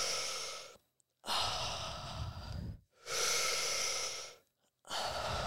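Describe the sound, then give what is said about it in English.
Deep, long breaths drawn in through the mouth during a guided breathwork exercise for energy, loud and airy, repeating in a steady cycle of four long rushing breaths separated by brief silent gaps. “We're going to breathe in through the mouth now, 10 breaths. Big long breaths, keep going.”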